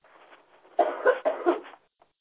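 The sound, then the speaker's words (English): A few coughs on an online group call: a brief run of rough, breathy bursts in quick succession, after a faint murmur, then silence. “Coughing is all right as well.”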